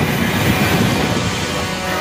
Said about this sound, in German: Wenig später fährt der Zug in Appaloosa, einer kleinen Westernstadt, ein.